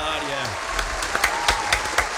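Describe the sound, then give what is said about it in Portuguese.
Studio audience applauding, a dense wash of clapping with a few sharper bursts; a voice is briefly heard at the start. “A coisa que eu gosto é de malta a aplaudir. O estúdio cheio de gente a aplaudir Duarte Pita-Negrão”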